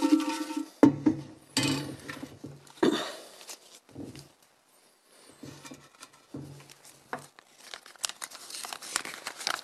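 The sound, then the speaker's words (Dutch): Shuffling rustles come in a few short bursts of papery crinkling and rubbing, separated by brief pauses, all fairly quiet. “Eigenlijk moet je opnieuw schudden, hè?”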